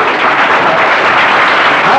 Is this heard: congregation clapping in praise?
yes